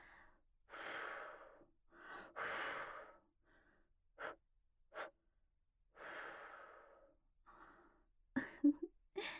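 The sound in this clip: Soft breath blown gently in a series of airy puffs of varying length. Several are drawn-out, others are short and sharper, with quiet pauses between them and no talking.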